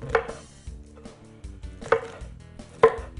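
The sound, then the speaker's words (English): A knife chops yellow oyster mushrooms in a few sharp, separated strokes. Three strokes are clearly louder than the softer ones between them, with quiet pauses in between. “Let's chop them up.”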